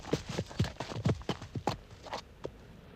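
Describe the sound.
Galloping hoofbeats of three riders' horses clatter in a quick, uneven rhythm. Many sharp beats come loud and dense at first, then thin out and grow quieter.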